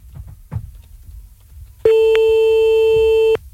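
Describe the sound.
A telephone line tone plays while calling someone back: one steady, loud electronic tone lasting about a second and a half, then cutting off abruptly. Faint, low background noise comes before it.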